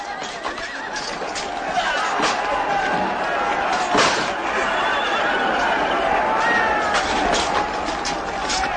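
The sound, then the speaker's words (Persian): Horse neighing with hoofbeats as a rider mounts and sets off at a gallop, a loud, dense and continuous stretch with whinnies rising over steady clatter. “عبدالله افسار اسبی را می گیرد و حرکت می کند. به اسب خود می رسد. بر اسب خود سوار می شود و به تاخت می رود.”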